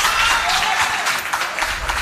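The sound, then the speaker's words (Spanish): Audience applause breaks out during a town council session, just before the public is ordered out of the chamber by the mayor. Dense, steady clapping holds at an even level for about two seconds. “lo que ha provocado aplausos entre el público asistente, que fue expulsado en ese momento de la sala por orden del alcalde.”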